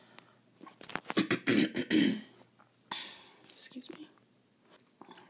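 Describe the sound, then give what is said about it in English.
Coughing and throat clearing from someone still recovering from a cold, a cluster of short, harsh bursts that come close together and then ease off into scattered quieter ones. The sounds are fairly faint, with some breathy vocal noise among them. “excuse the coughing. I'm still getting over that cold”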